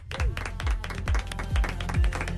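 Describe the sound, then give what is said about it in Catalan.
Clapping in a studio as a television programme signs off, dense hand claps laid over a steady thumping low beat, lively and moderately loud throughout. “Avui m'aplaudeixo jo.”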